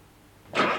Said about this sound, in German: Und das? Das ist ein Wagen. Ein Volkswagen.